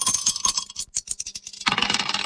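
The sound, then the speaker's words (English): Dice tossed and rolling to pick a song: a quick rattling clatter of small hard clicks, then a louder, denser burst of rattling near the end. “Let's toss the dice and see what we get.”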